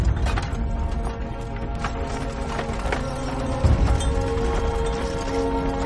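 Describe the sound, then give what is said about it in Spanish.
A horse-drawn wooden wagon sets off in a western setting, with rattling, creaking wood and mechanical clatter mixed with clopping hooves in a busy, continuous rhythm that stays loud throughout. “La carreta se pone en marcha.”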